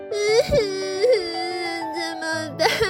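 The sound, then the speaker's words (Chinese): A voice imitates a character crying in distress, producing a whining, wavering cry with sustained tones that slide up and down in pitch. “斑斑着急的哭了。”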